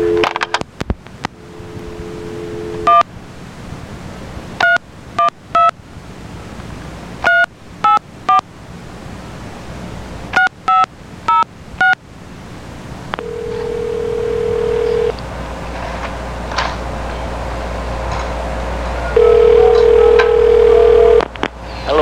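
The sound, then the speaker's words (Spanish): A telephone on a 1993 cassette recording is dialed with many quick touch-tone beeps between stretches of steady dial tone, then a ringing tone repeats near the end over a constant low hiss. “Esta es una llamada a José Antonio para probar el cassette, a ver si está trabajando bien o está defectuoso.”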